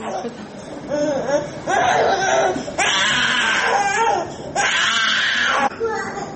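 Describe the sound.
A one-year-old boy cries during hemodialysis in a children's hospital room in Bishkek, with loud, wavering wails in several long bursts and speech alongside.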